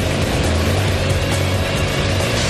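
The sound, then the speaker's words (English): Loud, continuous roar from a home-built vehicle speeding down a course with its wheels spinning, dense and steady for the whole moment with no pauses. “Look at those wheels spin. Come on, baby, go!”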